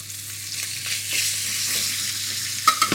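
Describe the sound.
Skin frying in butter in a pan, slightly stuck to the surface, gives a faint, steady crackling sizzle with a few sharper scraping clicks near the end.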